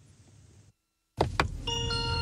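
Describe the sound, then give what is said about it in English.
Cheery welcome tune of a Chinese electric car chimes on getting in: after a brief silence come a couple of sharp knocks, then clear, sustained bell-like tones. “Here we are. Here's a little tune every time you get in. It's very cheery. Very cheery. It's a little welcome to your car.”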